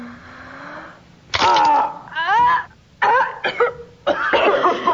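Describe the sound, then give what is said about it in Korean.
Several young people clear their throats one after another in a string of short, harsh, gravelly bursts of varied pitch. A faint low hum comes before the first of them. “클레어가 헛기침으로 벤더의 비명 소리를 감추자 나머지도 다들 헛기침을 해댑니다.”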